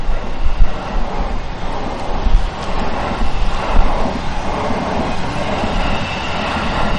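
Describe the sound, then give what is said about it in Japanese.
A train passes close by on a railway line near an overpass above a main road, a loud, steady rumbling roar with rattling wheels that fills the whole stretch without a break. “それは線路でずっと来てる感じです。 そうですね。で、あの、246のガードが、 うん、 あります。 はい、電車が近い。”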